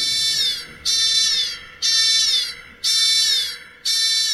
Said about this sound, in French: Alerte intrusion. Alerte intrusion. Restez calme. Soyez attentifs et faites silence. Mettez en place les mesures de sécurisation.